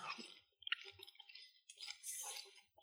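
Chewing a bite of Spanish chorizo: faint, moist clicks and squishy mouth sounds come in an irregular run, with no talking.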